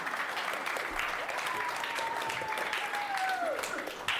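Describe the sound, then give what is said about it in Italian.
Audience applause fills a school class radio show after the last question of a segment, a steady, dense patter throughout with a thin whistle-like tone running across the middle and dipping at the end. “Grande applausometro signori.”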